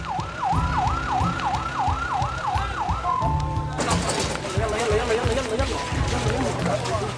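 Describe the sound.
An ambulance siren wails in a fast, repeating rise-and-fall pattern, then gives way to noisy, crowded commotion with voices.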